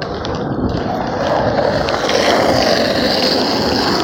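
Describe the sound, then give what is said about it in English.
A kid's skateboard rolls along with a steady, gritty rumble that stays loud and continuous throughout, with no talking. “Okay, there might be some grocery bag noise here and some skateboard noise.”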